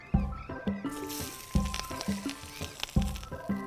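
Olive oil sizzling in a hot pan, a steady crackling hiss with a few recurring louder bursts of clatter and stirring at regular intervals.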